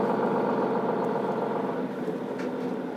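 Bus engine droning as a city bus on route 9 pulls away from a stop: a continuous, fairly loud, even rumble with a broad, hissy texture and no voices over it.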